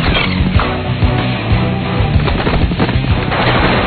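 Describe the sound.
Heavy gunfire in a combat scene: a dense, loud, continuous barrage of overlapping shots, bangs and crashes with no letup.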